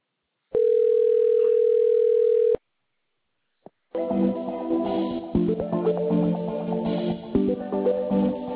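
Telephone ringing tone as a call is transferred to an advisor: one long, steady mid-pitched tone of about two seconds, then silence, a single click, and music starting up.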